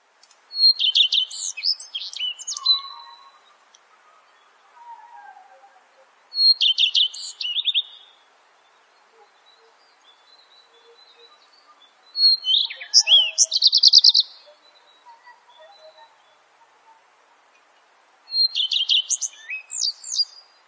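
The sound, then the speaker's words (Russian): A redstart sings four separate bursts of high, quick, twittering song, each a few seconds long, with long quiet gaps between them and soft, lower calls in between. “Горехвостка.”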